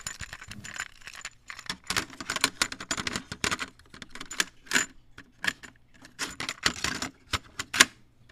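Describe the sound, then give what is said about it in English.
A cassette tape is handled and put into a player: many quick plastic clicks, clacks and rattles in irregular bursts, fairly quiet. “So let me just put this tape in.”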